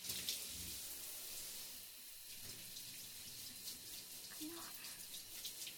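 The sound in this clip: Water from a tap or shower runs steadily while a person is rinsed off during a bath. It makes a continuous bright hiss with a few soft splashes.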